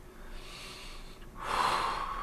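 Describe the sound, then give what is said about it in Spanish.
A deep inhalation, a long airy breath drawn in that swells louder toward its end, with no one talking. “Inhala bien profundo.”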